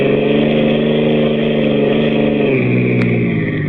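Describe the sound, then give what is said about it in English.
A recently tuned-up motorboat motor runs loud and steady with a rich droning tone, dipping slightly in pitch toward the end. “Sounds pretty good. No, like I told you, the motor's okay. I just had it all tuned up about a week ago.”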